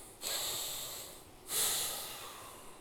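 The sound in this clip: A deep breath taken during a pause in a talk about anger: two long, soft, airy rushes of air, the second slightly louder, with no voice.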